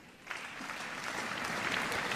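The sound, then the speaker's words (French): Audience applause at a tribute evening for an actress's 70th birthday, with the crowd rising to clap. The dense, steady clapping swells slightly and continues throughout. “une chose simple, mais ô combien symbolique, c'est de vous lever pour ses 70 ans, et de l'applaudir avec moi.”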